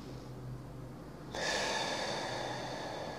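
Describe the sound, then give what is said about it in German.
A breath drawn in during a guided breathing exercise: a soft, airy hiss that begins suddenly partway through and holds steady to the end, with no talk. “Wieder einatmen.”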